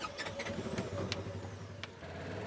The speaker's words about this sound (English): Outside the city of Cornell in Chippewa County, Nick Haas steers a vehicle he calls the Swamp Buggy into a 100-acre wetland known as Foggy Acres.